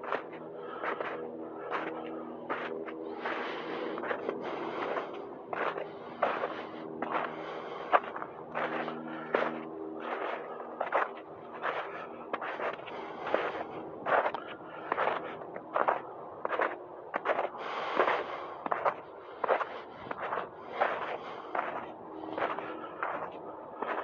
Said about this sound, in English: We're not going to walk in the snow for too long here. We're going to go back on the road.